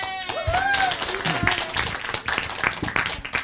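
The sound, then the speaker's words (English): An audience claps for an introduced vice president, with scattered, uneven hand claps running throughout. Voices talk over the clapping. “You know, as I go down the line, it doesn't have to get quieter and quieter on the applause here, you know.”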